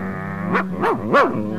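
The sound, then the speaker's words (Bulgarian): A dog barks three times in quick succession, each bark a short yelp that rises and falls in pitch, the last the loudest, over a steady low humming tone. “Това е едно отвратително куче.”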